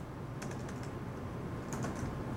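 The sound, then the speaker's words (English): Typing on a laptop computer keyboard, a run of light, quick key taps in irregular clusters over a steady background hiss. “The man types into a laptop computer.”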